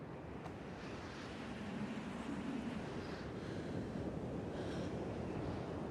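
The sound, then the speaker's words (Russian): Wind blowing over a rippled sea below a clifftop, a soft, steady whoosh with gentle surging swells of wave noise, faint and continuous throughout. “Ветер ерошит ее волосы.”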